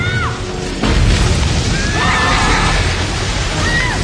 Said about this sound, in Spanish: La puerta revienta y el caudal arrolla al hombre con el niño.